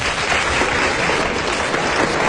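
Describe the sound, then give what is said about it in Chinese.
Continuous audience applause rings out for performers at a comedy crosstalk show. The clapping is loud and dense throughout, an even crackle of many hands with no pause. “男同胞给鼓励鼓励。哎，别鼓励， 大家给点掌声。”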